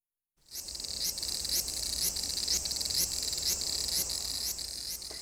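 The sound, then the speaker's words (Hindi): Large brown cicada (aburazemi) calling in Japan, a continuous sizzling, high-pitched drone that starts abruptly and holds steady, with faint regular pulsing running through it. “Jamie Jhingar Japan भर में पाया जाता है और रोजमर्रा जिंदगी में कमोबेश हर एक से इसका वास्ता पड़ता है। तो आइए इसकी आवाज सुनते हैं।”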